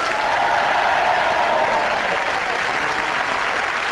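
A studio audience applauds to welcome the four panelists of a panel game, a loud, dense, unbroken roar of clapping with no talk over it.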